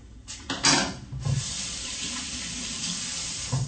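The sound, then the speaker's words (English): A running kitchen tap while hands are washed before kneading seitan: a few splashy bursts at first, then a steady, even rush of water. “Now I'm washing my hands real good here”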